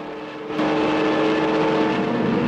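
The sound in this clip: Fighter plane engines drone as the aircraft dive toward a fleet of Japanese planes in an air combat scene. The dense, rough roar swells noticeably louder after the first half-second and then holds steady.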